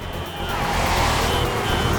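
Cars roaring through an intersection during a chase in oncoming traffic, a loud, continuous engine and road rumble that swells slightly and stays steady throughout.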